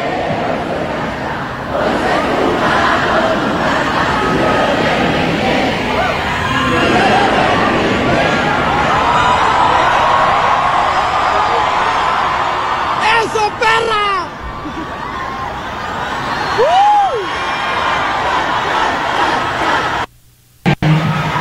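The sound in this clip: Loud audience cheering and shouting at a live concert, a dense, continuous roar of many voices held for about twenty seconds before cutting out sharply near the end.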